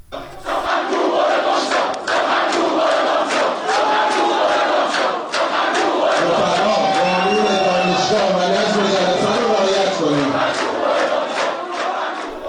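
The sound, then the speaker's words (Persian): University students protesting a speaker chant and shout together. A loud, dense crowd roar runs continuously, with rhythmic unison phrases over a steady wash of many voices. “صدای یکی از این اعتراض‌ها رو بشنویم الان.”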